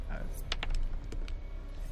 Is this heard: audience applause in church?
no